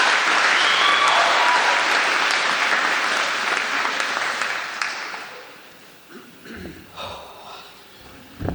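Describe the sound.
Applause from an audience welcoming the class of 2018 student speaker at a university graduation ceremony. Dense, sustained clapping is loud at first and then gradually fades away, leaving a few faint scattered sounds at the end.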